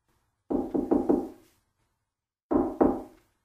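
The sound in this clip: Knocking on a hotel room door: three quick, firm raps, a short pause, then two more knocks, alone with no voices.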